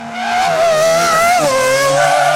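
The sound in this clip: A loud, sustained screech like race-car tyres skidding, standing for children's new sneakers racing, holds a high, wavering squeal for over two seconds and dips slightly in pitch midway. No one speaks.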